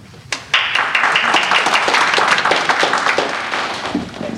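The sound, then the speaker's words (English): Audience applause starts abruptly after a brief quiet moment, then continues as dense, steady clapping that slowly tapers off. “Why don't we give another round of applause to Morrison Forster for their generosity in hosting.”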